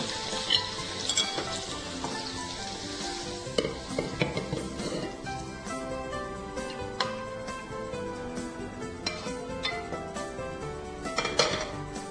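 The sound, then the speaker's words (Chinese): Sauce sizzling as it reduces and thickens in a pan, a Thai-style dish with fish sauce, stirred throughout: a steady bubbling hiss with many scattered scrapes and clinks of the utensil against the pan, without talk. “那这时候呢，我们把汁呢收干一点哦，不要太湿，不要汤汤水水，但是也不能太干咯哈、哦，也不能太干。好，感觉有点粘稠了哦。”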